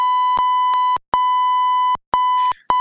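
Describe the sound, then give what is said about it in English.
Electronic beeps form a steady mid-pitched tone that breaks off into a few long stretches, each separated by a brief silence and marked by sharp clicks at the cuts. “I don't know what those beeps mean.”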